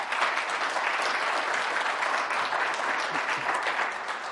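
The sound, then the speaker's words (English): Congregation applauding visitors during a Sunday church service, a dense, steady wash of clapping hands that holds at an even loudness for the whole stretch with no break. “Can we just give a hand to those that are visiting with us today? Come on.”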